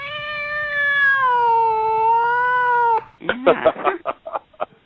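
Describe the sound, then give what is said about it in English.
A household cat gives one long, drawn-out meow of about three seconds with a gently wavering pitch. A person then starts talking right after it. “But if you hear a cat in the background, that would be one of our cats, Val.”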